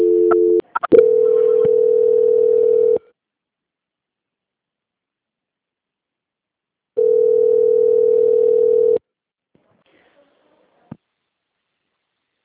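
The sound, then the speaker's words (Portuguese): Telephone line tone during a call transfer: a few clicks, then a steady, flat electronic tone for about two seconds, silence, and the same tone again for about two seconds, followed by faint clicks, with no voices. “Aí a senhora aguarda só um instante em linha que eu já estou transferindo a sua ligação”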